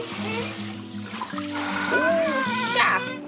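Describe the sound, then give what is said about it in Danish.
Water rinses a child's hair during a bath, splashing and trickling steadily throughout, with voiced tonal sounds over it. “Og skal lige skylle håret.”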